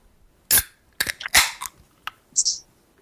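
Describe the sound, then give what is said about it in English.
Fingernails being trimmed with clippers: several sharp, bright snapping clicks, spaced irregularly and crisp against near silence, with a couple of closely bunched snips in the middle. “Why did I trim my nails like that? Oh, that's right, because I'm a goddamn gentleman.”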